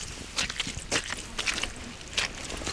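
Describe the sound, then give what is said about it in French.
Footsteps walk along a muddy path through a birch forest, a few soft, faint steps at a slow, fairly even pace. “Il faut à présent marcher en sous-bois sur un chemin boueux.”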